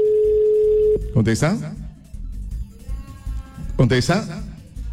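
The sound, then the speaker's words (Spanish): A telephone gives a steady, unbroken dial tone for about a second as a call is placed to return an earlier one, then the tone cuts off and voices talk over the line. “En este instante vamos a volver llamadas, ahí estamos devolviendo llamadas.”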